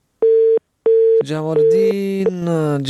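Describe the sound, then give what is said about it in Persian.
A telephone busy tone after a dropped call: two steady, evenly pitched beeps separated by a short gap, followed by a richer, louder tonal sound that takes over. “تماس قطع شد، نمیفهم که چرا. ای کاش قطع نمیشد.”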